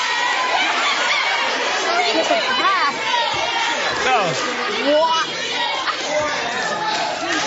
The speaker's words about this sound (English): In case if you couldn't hear at home, basically universally everybody yelled, "Drink it!"